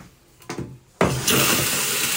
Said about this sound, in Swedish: När P4 Göteborg är inne i skolans lokaler går det att sätta på torkskåpen och spola i toaletterna